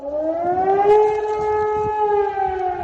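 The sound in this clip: German civil defense warning siren sounding a loud, steady wailing tone with strong harmonics. Its pitch climbs slightly over the first second, then holds level with no voices.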